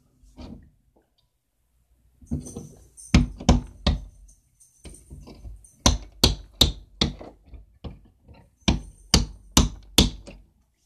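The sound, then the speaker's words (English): Hammering during solar panel installation on a house: many sharp, loud knocking blows come in uneven bursts with short pauses between, each strike crisp and separate. “That sound is the sound of solar. That's right, solar getting installed at the house. Pound, pound, pound, pound, pound.”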